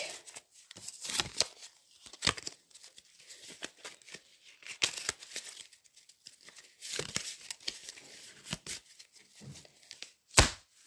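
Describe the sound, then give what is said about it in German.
A deck of trading cards is shuffled before a card game duel, with many quick papery riffles and flicks in irregular bursts. The sound stays faint overall, with one sharper snap near the end. “beide Duellanten mischen ihr Deck”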